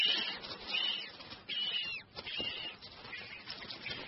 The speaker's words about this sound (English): Here, a very different kind of animal can be found in the rocky tubes. The chicks of Galapagos penguins.